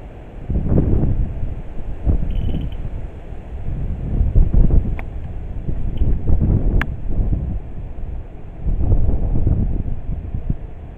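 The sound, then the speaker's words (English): Gusty wind buffets the microphone in several low, rumbling surges that swell and fade over about eleven seconds, with no talk. “I think that was the wind.”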